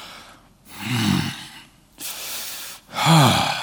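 Groaning sounds made during prayer: three breathy exhalations, two of them carrying low voiced moans that swell and fade, heard alone without words.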